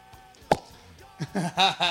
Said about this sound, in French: Une bouteille de dégoupillé, voilà, du gros rouge.